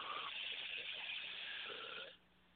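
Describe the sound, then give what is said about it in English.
A deep breath taken during a guided moment of calm, heard as a soft, steady rush of air for about two seconds that then stops abruptly. “just remember that the breath of life is always available to you to take a deep breath, as we shall now.”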